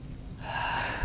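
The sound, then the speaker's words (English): A single deep inhaled breath, a brief rushing intake that swells over about a second and ends with a louder push, taken by listeners during a talk on breath prayer; no voices. “including everyone take a really deep breath right now”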